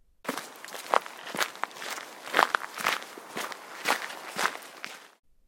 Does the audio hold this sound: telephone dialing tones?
no